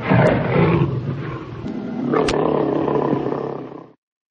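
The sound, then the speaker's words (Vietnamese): A tiger trapped at the bottom of a well roars desperately: one long, loud, rough roar lasting about four seconds, heard alone before it cuts off. “Cọp tuyệt vọng kêu cứu.”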